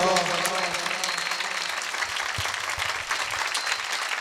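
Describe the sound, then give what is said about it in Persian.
An audience claps at a religious celebration marking the births of the Prophet of Islam and Imam Ja'far Sadiq. The applause is dense, continuous and fairly loud, with voices mixed in. “یه دونه از اون کفایی که دلو برای هیشکی نزدی بزن، بهتر. دستت پایین نمونا، دستتو بیار بالا.”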